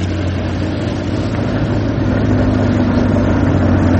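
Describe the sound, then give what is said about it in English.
A car engine runs steadily as the car drives home past midnight. The engine makes a constant low, droning hum with road noise, keeping an even, moderately loud level throughout with no voices. “He's driving me home. Next on the left, isn't it?”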